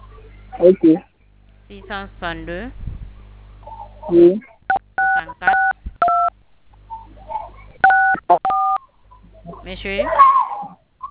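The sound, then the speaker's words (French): Telephone keypad tones from someone pressing keys on a phone's touchscreen during a call: several short, clean beeps in quick clusters, interspersed with stretches of talk. “Arrêtez de toucher aux touches de l'écran du téléphone,”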